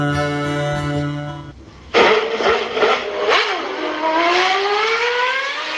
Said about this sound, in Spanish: ¿Te gusta el motor?